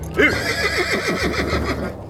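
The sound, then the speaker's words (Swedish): A horse neighs in a long, quavering whinny. Its pitch wavers up and down in repeated pulses above a low, steady rumble. “Hämta hästarna ur grottan.”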